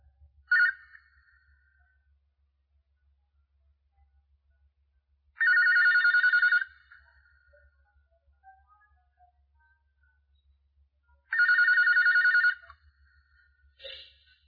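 A telephone rings for a phone-in call. The bright, trilling electronic bell comes in two long bursts of about a second each, separated by long silences, with brief chirps at the start and end.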